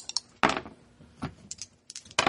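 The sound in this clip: Dice clattering as they are rolled and dropped for a damage roll in a tabletop role-playing game: a few sharp, bright clicking impacts with lighter rattling ticks between them, no voices.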